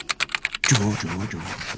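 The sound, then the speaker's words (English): Several quick, sharp typewriter key strikes clack in rapid succession, then a voice starts talking. “Right. Type. Right. Type. Right. Type. Right. Typewriter.”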